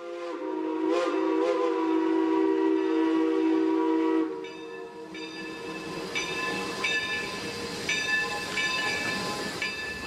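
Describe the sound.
A train at a railway station sounds a sustained, tonal whistle for about four seconds, then gives way to rumbling, clanking rail noise with further whistle tones above it.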